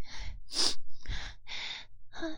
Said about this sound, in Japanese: また鼻シュってするやつ入れると